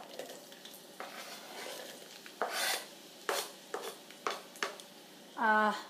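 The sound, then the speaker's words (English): Onions dropped into hot oil while cooking fried rice, giving a faint sizzle broken by several sharp scraping, rasping bursts that grow more frequent toward the end. “All right, my oil has heated up already. Can you believe it? Here I go. I'm dropping in onions.”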